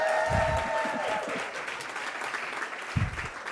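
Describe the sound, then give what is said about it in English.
Applause from the audience at a Cleveland philanthropy community event: steady clapping fills the whole stretch, with a voice speaking over it at the start. “give it up for the Soul of Philanthropy Cleveland.”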